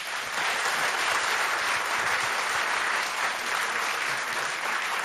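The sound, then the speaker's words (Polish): Sustained applause from an audience at a live music show honouring singer-songwriter performers. Many hands clap in a dense, even wash that holds steady for the whole stretch, with no single voice standing out. “I za to dla nich największe brawa.”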